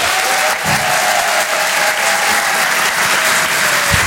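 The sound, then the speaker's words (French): Audience applauding a comedian onto the stage at a live comedy show, a loud, dense and unbroken burst of clapping that holds steady throughout. “Faites un maximum de bruit, s'il vous plaît, pour Julien Sabas.”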